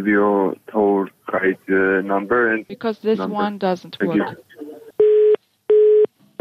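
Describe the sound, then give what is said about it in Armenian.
A telephone busy signal sounds as a phone call is cut off mid-conversation: a stretch of talking gives way to three steady, evenly spaced mid-pitched beeps heard alone. “Կեսից ընդհատված զրույցը այդպես էլ չհաջողվեց շարունակել։ Մեր զանգերը անջատվում են։”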